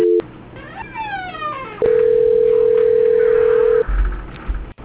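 Telephone tones during a call transfer: a short tone at the start, then a loud, steady, unbroken tone lasting about two seconds, followed by a low rumble.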